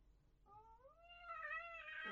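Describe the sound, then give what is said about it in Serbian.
A wild cat yowls during mating in one faint, drawn-out cry that rises in pitch and wavers, growing louder and harsher toward the end. “Pored minimalne dreke divljih mačaka u parenju.”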